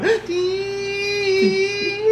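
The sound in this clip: A voice imitating the crying string bend of a favourite rock guitar solo, a half-step bend sung as a high, nasal whine that rises briefly at the start and then holds a steady sustained pitch.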